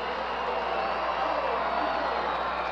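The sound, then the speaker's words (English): Baseball stadium crowd noise in the bottom of the ninth inning: a steady, broad roar of many spectators that holds at a fairly low, even level throughout. “And the crowd making some noise here”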